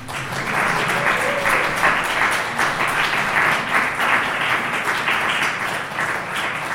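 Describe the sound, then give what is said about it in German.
Warm audience applause for the performers of a university stage show, steady clapping sustained at an even volume for the whole stretch without voices. “Dafür einen herzlichen Applaus”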